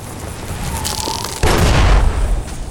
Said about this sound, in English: We're going back to the dynamite. Because I still got lots of dynamite. And I feel like I can just blow this guy up.